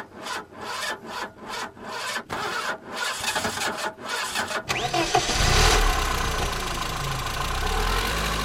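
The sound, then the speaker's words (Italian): A car engine starts after the ignition key is turned: a long run of rapid, rasping cranking bursts, then the engine catches and settles into a loud, steady running roar. “proviamo a vedere se il nostro motore, il nostro cervello parte bene oppure se è un po' ingolfato. Dobbiamo solo girare la chiavetta, vai!”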